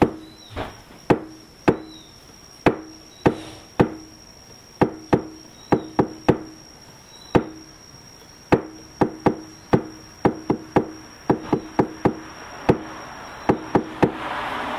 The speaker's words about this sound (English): So I just tapped out the Panchatattva mantra. So that's the only thing that your partner is going to hear.